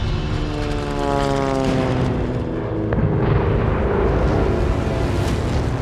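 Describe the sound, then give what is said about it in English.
Japanese fighter planes fly over Battleship Row at Pearl Harbor, their propeller engines a loud, continuous droning roar with a steady, heavy rumble. “But while American sailors waited in line for morning chow, Japanese fighter pilots flew out of the clouds and over Battleship Row.”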